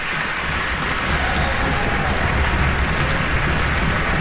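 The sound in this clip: A concert audience applauds as the bassoon section stands. The clapping forms a dense, steady wash that holds at an even level throughout.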